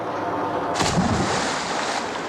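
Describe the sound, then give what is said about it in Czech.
A nearby underwater explosion from a shot bursts as a sudden deep boom out of steady background noise, then rolls on as a heavy, sustained rumble to the end. “To bylo už docela blízko. Buďme vděční za tento výstřel.”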